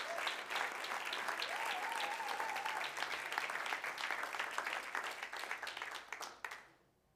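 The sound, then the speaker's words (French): Applause from a church audience honoring its translators, a dense steady patter of many hands clapping for about six seconds before fading out, with a faint sustained tone running through the middle. “Clap for them. Acclamez pour eux.”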